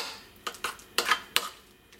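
A utensil clinks against a bowl while salt and pepper are mixed through food. A few light, sharp taps come at uneven intervals over a quiet background.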